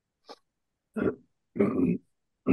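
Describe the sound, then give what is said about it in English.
A person clears their throat in a few short, rough, guttural rasps separated by silent gaps, the later ones longer and harsher. “Sorry, I'm trying to get my throat clear.”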